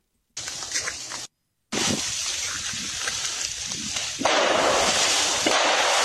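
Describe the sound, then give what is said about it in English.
Trees bent under a load of ice snap, giving a few sharp crack-like reports over a constant noisy rush. A brief silent break comes early, and the sound grows louder near the end. “What you're about to see is a video of an area where the snow on the, or the ice on the top of the trees is bending the trees, and then the trees are snapping.”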